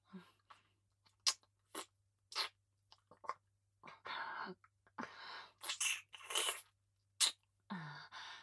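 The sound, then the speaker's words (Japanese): Gentle biting mouth sounds: many short, soft, wet crunches and clicks come in irregular bursts, some clipped and some drawn out, all quiet, with no speech. “噛んじゃうね。優しく噛むけど、痛かったら言ってね。”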